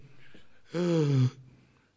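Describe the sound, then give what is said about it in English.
A voice imitates the labored breathing of a dying, morphine-drugged cancer patient: one strained, rasping voiced breath of about half a second, alone and fairly faint. “he couldn't breathe properly because of the cancer. And he was all drugged up with morphine and everything.”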